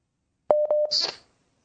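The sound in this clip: Telephone keypad tones as a call is dialled and connected: a few short beeps in quick succession over a steady tone, then a brief burst of hissy, crackling line noise.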